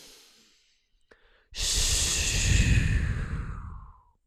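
A single deep, loud breath during a breathing exercise meant to reduce inflammation. It follows a short, near-silent pause, rushes in strongly and steadily for almost three seconds, then fades out. No one speaks.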